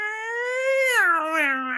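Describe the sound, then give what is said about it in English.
A human voice imitates cats yowling at night, one drawn-out wailing note that rises slightly, then drops to a lower, wavering pitch, alone without other sounds. “when we're sat in bed at night and we hear cats going,”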